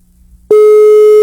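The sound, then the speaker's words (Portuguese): An outgoing telephone call's ringing tone: after a short near-silent stretch, a single loud, steady pure hum starts abruptly and holds unbroken to the end. “Ligando pra você agora. Tá chamando mais uma vez, hein?”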